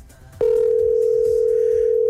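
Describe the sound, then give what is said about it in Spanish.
A telephone tone sounds as a call is placed: a click, then a single loud, steady, mid-pitched tone held unbroken to the end over a faint background. “Ahí tenemos la llamada. La última oportunidad.”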